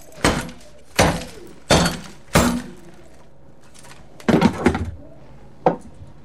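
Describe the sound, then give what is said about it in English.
A phone is smashed on a bureau with the base of a lamp. Four heavy, evenly spaced blows are followed by a quick cluster of cracking knocks and one final hit, all loud and sharp. “On a bureau, she smashes the phone with the base of a lamp.”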